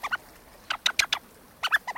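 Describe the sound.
A rubber blackbird call toy squeezed to imitate a blackbird gives three clusters of quick, high, squeaky chirps separated by short pauses. No voices.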